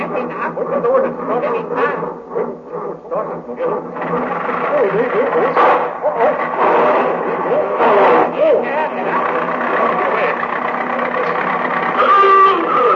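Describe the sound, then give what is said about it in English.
Comedy radio sound effect of a jeep driving off: a busy, continuous chugging and rattling engine noise that runs the whole time, mixed with voices and other clattering sounds. “Westminster, quick to the jeep. Eccles, you drive.”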